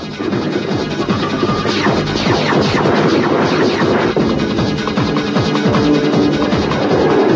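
Weapon fire in a 3D shooting action video game: a dense, loud, unbroken barrage of overlapping blasts and impacts that keeps going without pause, with no talk.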